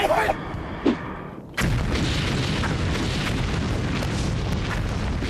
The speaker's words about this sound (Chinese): 准备扔手榴弹！